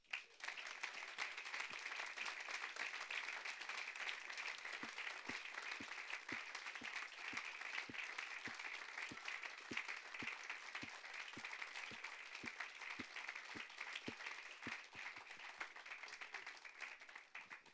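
An audience claps steadily and warmly to welcome people onto the stage, a faint, even applause that keeps going without a pause.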